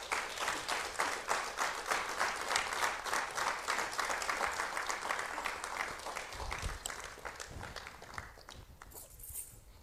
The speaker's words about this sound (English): Oh, let's put our hands together and welcome Pastor Martin.